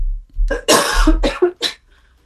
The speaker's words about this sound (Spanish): Perdón, aquí tengo tosecita.